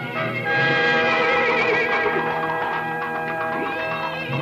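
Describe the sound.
A horse neighs on a city street in Saint Petersburg: a long, loud whinny whose high pitch wavers and trembles throughout.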